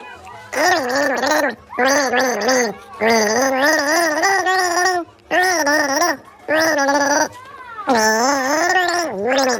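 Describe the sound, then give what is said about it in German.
Water gargled with the head tilted back to the melody of the children's song Hänschen klein. Six bubbling, wavering phrases follow the tune, each separated by a short pause. “Du nimmst einen Schluck Wasser in den Mund, legst den Kopf in den Nacken und versuchst, ein bekanntes Lied zu gurgeln.”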